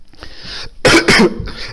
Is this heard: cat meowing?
no